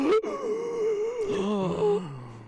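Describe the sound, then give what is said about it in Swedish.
A deep, asthmatic breath, voiced and drawn out with a rasping, wavering pitch that settles lower toward the end. A human voice performs the breath. “Han tar ett djupt andetag före han drar första lappen.”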